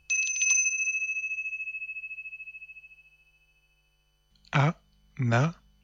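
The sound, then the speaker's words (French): A small bell jingles in a quick cluster of strikes, then a bright metallic tone lingers and shimmers as it fades over about three seconds. Two short vocal sounds follow after a pause. “Ça va, on vient, on arrive. Maudite clochette.”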